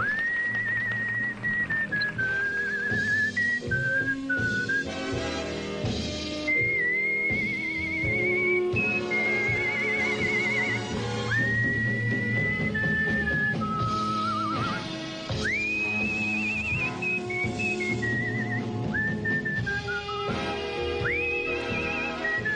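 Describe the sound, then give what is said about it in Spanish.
A skilled whistler performing a melody over full orchestral accompaniment, the bright, pure whistled line gliding and sliding between sustained notes above the continuous orchestra for the whole length. “Este era su silbido preparándose para el Mundial de Estados Unidos.”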